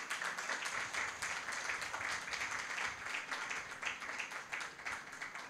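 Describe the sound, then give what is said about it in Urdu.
A church audience claps during a sermon, giving a steady, dense patter of many hands that holds evenly for about five seconds, faint throughout and with no voices on top. “میرے عزیزوں آئے یسوع کے لیے پرزور تالیاں بجائیں.”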